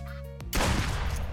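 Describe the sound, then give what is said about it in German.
A shotgun blast from the duck-hunting video game Duck Season cuts in loud and harsh after a short run of steady electronic tones, and its noisy roar fills the rest of the moment. “Der Duck Season. Der, wie kann man eigentlich. Was ist das eigentlich? Ich bin nur mit einer Shotgun.”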